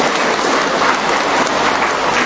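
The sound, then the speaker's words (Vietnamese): Applause from the audience at a Vietnamese-language sermon, a dense, even hiss of many hands clapping that holds at a steady loud level without gaps, almost like heavy rain. “Cho một tràng pháo tay đi thưa anh chị em.”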